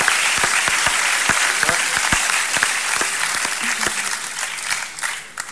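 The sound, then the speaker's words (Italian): Audience applause at a national festival event, greeting a young town council president: dense, steady clapping with sharp individual claps throughout, loud and sustained, easing slightly toward the end. “Possiamo fare un applauso a un presidente così giovane?”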